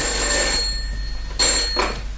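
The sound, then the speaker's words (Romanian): A telephone bell rings at home in the middle of the night, loud bursts of shrill ringing separated by a short quiet gap, over a low steady hum, with no talk. “a sunat telefonul în miezul nopții”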